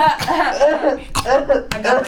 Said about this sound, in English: Sorry guys, I've been like holding in my cough. I literally didn't know. Cough break.